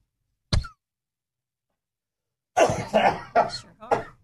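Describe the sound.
One sharp cough from a person troubled by allergies breaks a short silence. After a pause, rougher throat sounds follow, mixed with talking.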